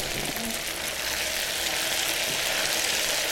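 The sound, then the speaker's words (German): Small pancakes fry in fat in a pan, giving a dense, even sizzling hiss that runs unbroken from start to finish at a steady loudness. “Wir portionieren die Pfannkuchen und braten die jetzt im Fett aus.”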